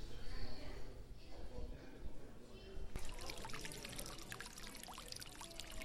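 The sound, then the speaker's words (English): Water splashing in a fountain inside a warm, humid flower conservatory in San Francisco's Golden Gate Park. The splashing is a steady, dense patter that turns brighter and crisper midway, with a faint murmur of crowd voices underneath. “That's the sound of water and fountain. Live here on location, standing here.”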